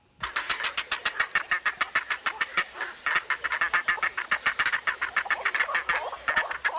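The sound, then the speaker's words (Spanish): A grey heron colony calls at the nest, with chicks begging adults for food. Many harsh, rapid clattering calls repeat in a quick, steady rhythm with no pause, fairly faint and continuous throughout. “Pero no nos vamos a ir sin escuchar a la garza real, que la teníamos aquí muy callada. Eso es. Y a ver cómo nos suena la garza real.”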